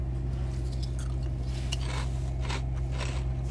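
Crunching of chili-flavored chips being chewed, a few faint crackly crunches over a loud, steady low hum.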